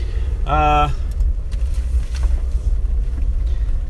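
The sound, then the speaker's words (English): Steady low rumble of a car driving on a morning commute to work, a continuous engine and road drone throughout, with a short tonal sound near the start. “This is going to be another morning edition. I'm on my way to work. My 40-minute drive or so.”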